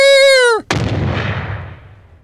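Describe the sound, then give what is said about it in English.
A cannon fires a human cannonball: a steady, buzzy tone dips and cuts off, then one loud blast bursts out and fades into a long, trailing rumble. “I'm a human cannonball. 3, 2, 1, fire!”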